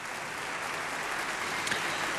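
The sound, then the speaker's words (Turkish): A concert hall audience applauds the orchestra members after a suite from Manuel de Falla's The Three-Cornered Hat, producing a soft, even wash of clapping that holds steady throughout. “Evet, orkestra üyelerini alkışlıyor salondaki seyirci.”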